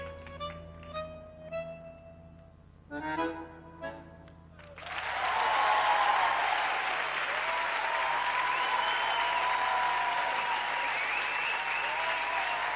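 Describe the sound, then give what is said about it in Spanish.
Applause from a concert audience: a few soft tonal notes come first, then the clapping starts abruptly and holds as a steady, dense wash of many hands for several seconds, moderately loud and unbroken to the end. “Ese aplauso”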